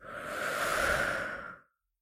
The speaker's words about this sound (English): To just stop and breathe. Breathe in. Breathe out.